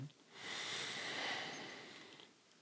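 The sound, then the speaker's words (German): A single deep inhalation: a long, steady airy hiss that swells and then slowly fades, with no talk over it. “Vielleicht muss ich nochmal einatmen. Warte, der, der tiefe Einatmer, der hilft mir beim Denken.”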